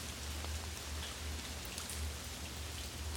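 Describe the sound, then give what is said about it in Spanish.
Light drizzle falls as a steady, even hiss of rain with no distinct drops or pauses, accompanied by a low, droning hum underneath and no voices. “¿Cae rápido o con una leve y ligera llovizna?”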